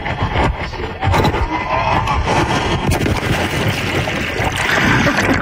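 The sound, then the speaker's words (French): A plunge into water, heard as a loud, steady rush of bubbling, churning water noise that continues throughout, with a small jump in level about a second in. “On entend même l'entrée en eau.”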